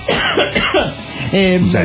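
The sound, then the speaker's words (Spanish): A person coughs loudly, giving a few short, harsh bursts and then a voiced throat-clearing rasp, with no other sound around it. “Sí, perdón, voy a toser en este momento.”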